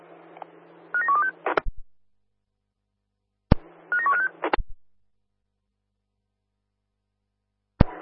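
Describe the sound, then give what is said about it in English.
Telephone keypad dialing tones sound as a call is placed: two bursts of quick, high beeps over a low steady hum, each ending in sharp clicks. A pause follows, then a single final click. “standby for a phone call, please.”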